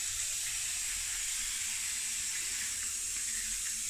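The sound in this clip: Running water pours steadily while a dog is bathed in winter. The flow makes a constant, even hiss alone, with no breaks or changes.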